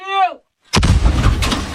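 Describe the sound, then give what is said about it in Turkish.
Howitzer artillery fire from Ukrainian guns shelling Russian positions in the Donetsk region: a loud blast erupts, then a long, deep, rumbling roar carries on at steady loudness with no voices. “Cephede ise Ukraynalı topçular Donetsk bölgesindeki Rus mevzilerini obüslerle vurdu.”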